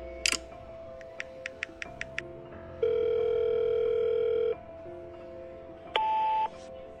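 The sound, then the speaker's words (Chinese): Mobile phone call being placed: a rapid run of short keypad beeps, then a long steady ringing tone, a pause, and a second shorter ring, over a faint background hum. “他掏出手机，哆嗦着给洛伊拨了个电话。”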